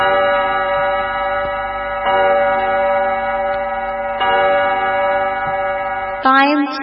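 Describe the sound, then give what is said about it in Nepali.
A studio clock time signal marks seven o'clock in the morning with a loud, sustained electronic tone of layered pitches that holds steady for about six seconds before breaking off into a brief different tone. “यति बेला हाम्रो स्टुडियोको घडीमा बिहानको ठिक 7 बजेको छ।”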